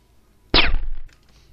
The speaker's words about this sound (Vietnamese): Một tiếng súng được gắn giảm thanh vang lên từ chỗ Hạ Vũ.